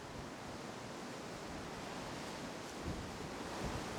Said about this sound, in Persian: آمبیانس جای مختلف، با باد، بدون باد، میدونی که همیشه هم بالاخره یه جا باد میومد.